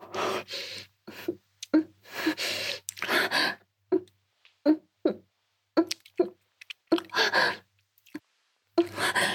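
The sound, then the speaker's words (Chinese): Wet kissing sounds: many short smacking and squelching bursts alternate with breathy gasps, fairly loud, separated by brief silences in an uneven rhythm. “咱们四唇紧紧贴合，舌头上下搅拌，这也太羞耻了。”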